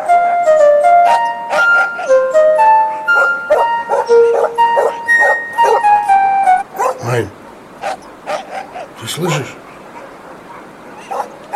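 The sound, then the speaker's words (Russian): Dogs bark wildly in a series of sharp, short barks and yips that begin once a melody stops. The barks come in uneven bursts. “Проклятые собаки, чё они, как ты думаешь, разбесились?”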